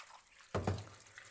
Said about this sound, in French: Je viens tout de suite laver mes tomates au passage. Je vais les laisser tremper avec un peu de vinaigre blanc.